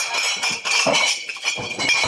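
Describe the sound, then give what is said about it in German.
Glasses clink at a beer festival, the opening of Munich's Oktoberfest, as bright, scattered metallic-glassy chinks ring out over a steady, dense, hissy background. “Gläser klirren auf der Wiesn.”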